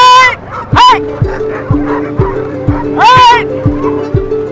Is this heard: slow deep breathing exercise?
no